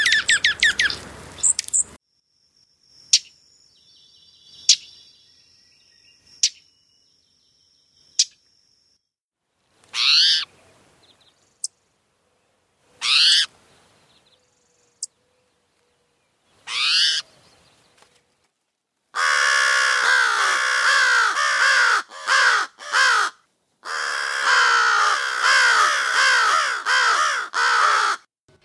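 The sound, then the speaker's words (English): Alarm calls from five bird species, the first an American robin, heard in turn: sparse sharp chips and brief calls separated by silences, then dense bursts of harsh, raspy cawing squawks toward the end. “Those five species that we just heard were all sending alarm calls.”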